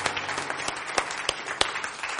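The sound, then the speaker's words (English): A church audience claps hands in a loose, uneven patter. A few sharper individual slaps stand out above the fairly quiet clapping. “Let's give him a hand clap. Hallelujah.”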